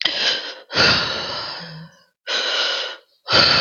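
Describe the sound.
Deep, audible breathing from a person during a past life regression session, four long airy breaths, fairly loud, with short silent gaps between them.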